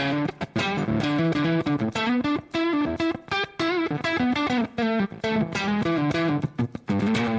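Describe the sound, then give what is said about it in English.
An electric guitar played through a drive pedal gives a bit-crushed overdrive tone: gritty, zippery and gated. Choppy distorted notes and chords are separated by abrupt cutoffs between phrases. “Well, the rest of this podcast be damned, that pedal sounds great.”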